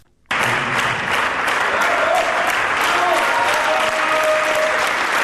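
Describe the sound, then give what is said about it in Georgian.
Loud, sustained applause with bravo shouts, an ovation for a documentary film-ballet; dense clapping starts abruptly and holds steady, with a few shouts rising over it. “ბალეტის მოყვარულებს ძალიან უყვართ ბრავოს ხმამაღალი ძახილი, მაგრამ ცდებით თუ გონიათ, რომ ეს ოვაციები ოპერის თეატრში ახალი ბალეტის პრემიერაზე ჩავწერეთ.”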